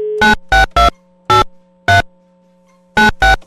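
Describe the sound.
An outgoing phone call ringing on the line: loud, buzzy tone bursts repeated in irregular groups over a steady low hum, with no voices.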